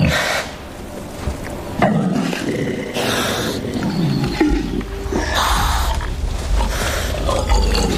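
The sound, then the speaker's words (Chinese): Two evenly matched male wild boars fight, trading harsh, guttural roars and grunts with rough scuffling bursts. The noise is loud and ragged, rising and falling over several seconds, and no voices can be heard. “又一只雄性野猪前来，向刚才那只野猪发起挑战。双方势均力敌，谁都不肯退让。”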